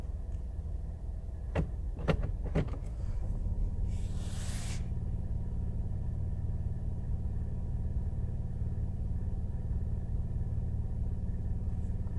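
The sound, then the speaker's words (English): A CX-5 SUV's engine idles in drive with the brake engaged, a steady low rumble through the whole stretch, with a few sharp clicks and a brief hiss early on. “this is the CX-5 in parking. I put it on drive with the brake engaged. Here's the sound.”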